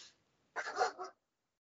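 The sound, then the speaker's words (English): A dog gives one short, muffled vocalisation of about half a second, a faint bark or whine standing alone in near silence. “What's the name of your dog? His name is Poe. Is he can you hear him? Yes.”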